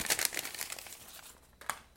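A paper envelope is handled and opened, giving brief crisp crinkling and rustling with a sharper tear-like crackle near the end.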